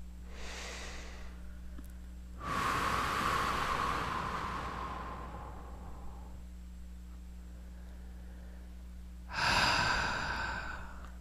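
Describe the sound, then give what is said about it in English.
Deep breaths taken during a webinar: a long, airy inhale that slowly fades, then after a quiet pause another shorter, sharper breath, heard alone over faint background hiss. “Nice deep breath.”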